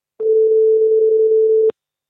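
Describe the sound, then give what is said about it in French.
A single ringback tone on an outgoing telephone call: one steady, unbroken mid-pitched beep lasting about one and a half seconds, loud and alone, then silence. “On va l'appeler tout de suite.”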